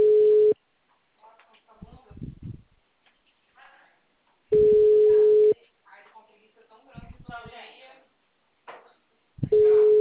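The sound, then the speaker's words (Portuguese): Telephone call tone heard while calling a mobile phone: a steady, mid-pitched tone comes in a few separate bursts spaced several seconds apart, with people talking in the gaps between them. “eu tô te ligando, você pode atender?”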